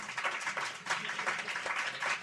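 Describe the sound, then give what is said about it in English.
Audience applause for panelists at the close of a panel discussion, soft, even clapping from many hands that carries steadily throughout. “First, our panelists, let's give them a round of applause.”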